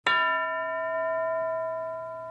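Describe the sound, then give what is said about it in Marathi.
A single bell strike used as a cue in a classroom lesson game rings out clearly and alone, its bright metallic tone sustaining with rich overtones and fading only slightly over about two seconds. “प्रत्येक वेळेला घंटा वाजली की teacher एका मुलीला किंवा मुलाला उभं करतील.”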